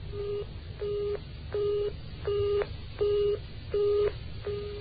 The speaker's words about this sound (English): He's dialed the wrong number. Then he tries again.